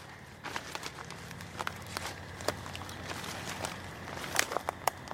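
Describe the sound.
Footsteps walk over to a log among trees outdoors, a series of many faint, irregular crunching footfalls with sharp transient clicks over a soft background hush, no talk.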